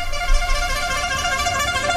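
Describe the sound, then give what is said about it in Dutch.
A handheld horn blares one sustained, steady honk with a bright, buzzing tone that holds at an even loudness for about two seconds. “Dus ik heb deze toeter.”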